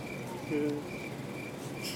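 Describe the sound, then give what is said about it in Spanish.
Cricket chirps played from a computer: a thin, high trill that repeats in short, evenly spaced bursts several times over a low, steady background hiss. “qué silencio tan incómodo. Ya tengo los grillos en la compu, no te apures.”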